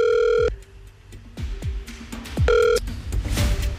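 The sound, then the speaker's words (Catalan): Telephone call being placed: two bursts of a bright electronic ringing tone, separated by a few descending swooping sounds and a busy background. “Ai, va, sí, va, estem trucant va. A la Tura.”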